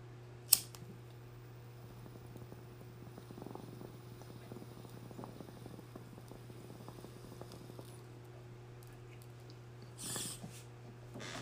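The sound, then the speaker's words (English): Bong hit through a water pipe: a faint, soft bubbling gurgle over several seconds, with a sharp click near the start and a steady low hum throughout. “Alright, I'm going to take this right now. But I just want to make sure I put this out for you guys, man. This bong rip is for you guys.”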